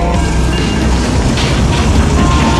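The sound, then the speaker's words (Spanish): A train passing, a loud, continuous, dense roar that stays steady throughout the short stretch, with no clear breaks or separate events. “¡Va a pasar el tren!”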